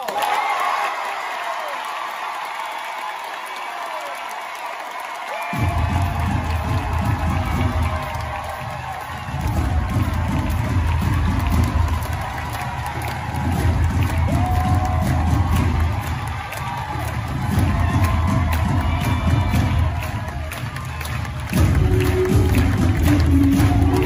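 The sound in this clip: A studio audience of The Voice, roused by a warm-up host, cheers and applauds. After a few quieter seconds, the crowd surges in loud waves of clapping, shouting and whoops that rise and dip several times.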